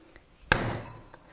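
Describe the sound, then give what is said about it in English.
A garlic clove is smashed with the flat side of a knife in one sharp, loud smack. A brief fading tail follows, with quiet before and after the hit. “And I'm just slicing the little end off the garlic and then smashing it with the side of my knife to get the peel off.”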